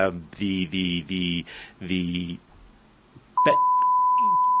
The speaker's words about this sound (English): we need the beep again